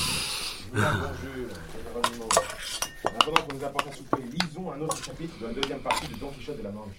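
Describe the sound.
Dishes and cutlery clink and clatter at an inn's supper table as a steaming pot is served, with light, scattered metallic and ceramic knocks under people talking.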